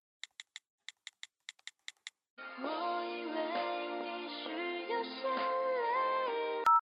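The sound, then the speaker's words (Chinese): Phone keypad beeps sound on an outgoing call: a quick run of short, clipped tones. A sustained melodic ringback tune follows and plays steadily until a sharp click ends it. “我现在就给他打电话”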